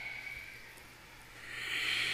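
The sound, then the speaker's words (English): Ujjayi breath during an all-levels power flow yoga practice, a soft, ocean-like hiss drawn through the throat that wavers quietly, then swells louder toward the end. “Put in and keep present. Ujjayi. Breath. A breath to connect to yourself and to others.”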